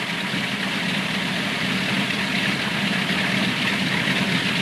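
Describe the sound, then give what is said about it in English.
A propeller fighter plane's engine drones as the aircraft turns and taxis across the tarmac: a continuous, loud, rough engine roar that holds steady without clear changes in pitch. “The plane turns around, propellers spinning, and taxis across the tarmac.”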